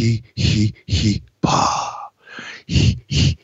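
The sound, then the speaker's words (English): A man doing a Lamaze breathing exercise, a series of rhythmic, forceful breaths and puffs, some half-voiced, with one longer exhale in the middle and short pauses between the others. “I'm going to do the same breathing exercise that they teach you in Lamaze.”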